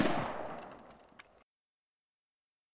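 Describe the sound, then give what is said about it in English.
A single rifle shot bursts out sharply at the start, then its broad, noisy tail fades over about a second and a half before the sound drops away to silence. “Celio lifted his rifle and fired.”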